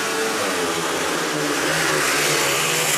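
Speedway motorcycles roaring off at the start of a heat in a Swedish league match, a loud, dense, unbroken engine drone that stays steady throughout.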